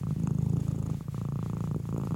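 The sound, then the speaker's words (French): A domestic cat purrs softly, a low, rhythmic rumble of rapid, even pulses that continues steadily throughout, quiet and alone. “Les chercheurs n'expliquent pas très bien le mécanisme à l'origine du ronronnement du chat”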